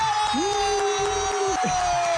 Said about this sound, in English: First time on radio. Let's give it a cheer.